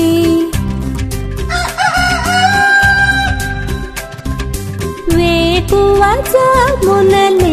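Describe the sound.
A rooster crows over a busy music track with steady drums and instruments. Its long, sustained calls rise and then hold, and the crowing sits inside the full, loud mix instead of standing alone.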